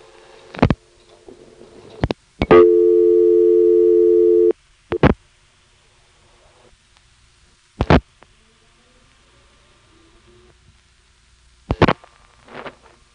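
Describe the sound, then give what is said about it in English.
A Harrisonburg payphone dials into a quiet analog telephone trunk: sharp line clicks, a steady dial tone lasting about two seconds, then several more isolated clicks separated by near silence with no hum. “Let's pick up a Harrisonburg payphone and dial 289.”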